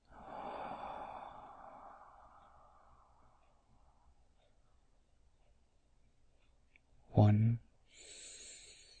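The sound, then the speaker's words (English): A deep breath drawn in during a guided meditation comes as a long, breathy inhale that fades out over a couple of seconds. A brief, sharp, loud burst of breath follows later. “Now that we have closed our eyes, let's go ahead and take a deep breath in.”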